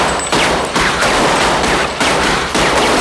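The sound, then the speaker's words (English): A machine gun fires at a ceiling inside a car showroom in long, loud, rapid bursts of automatic fire, with only brief breaks between the volleys. “Unable to control the machine gun, Larry fires at the ceiling.”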